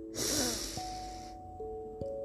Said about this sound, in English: Now take a big breath in.